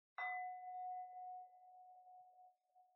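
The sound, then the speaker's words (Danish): A small singing bowl is struck once. It gives a bright metallic ding, then a clear, steady tone that rings on alone and slowly fades, with a higher overtone dying away first. “Jeg slår på en lille syngskår.”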